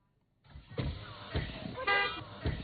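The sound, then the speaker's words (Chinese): Cars moving slowly along a narrow road into a village, with engine rumble, a few short thumps and knocks, and a brief horn-like tonal burst near the middle, fairly faint overall after a silent start. “当天下午，狭窄的进村道路车辆通行缓慢”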